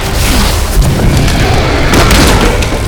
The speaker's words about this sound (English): A titanic blast, meant for Black Adam, struck Pestilence instead.